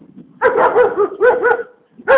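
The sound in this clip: A dog barks in the morning as it chases someone off: several short, harmonic barks come in three bursts, a rapid run first, a shorter pair next, then one more bark after a brief quiet gap.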